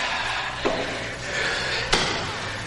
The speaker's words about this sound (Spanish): abre la puerta y enciende la luz